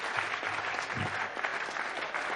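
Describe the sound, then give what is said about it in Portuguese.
Audience applause following a presentation: steady, dense clapping that holds at an even level from start to finish. “uma salva de palmas pela apresentação.”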